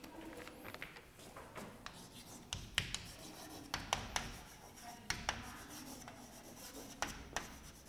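Faint writing on a board while a general sketch of a mechanism and its kinematic chain is drawn: many short scratching strokes in an irregular rhythm, with occasional sharper taps.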